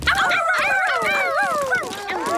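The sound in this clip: A dog gives a rapid run of high, whiny yips and whimpers, the sharp cries bending up and down in pitch and following one another almost without pause for the whole moment.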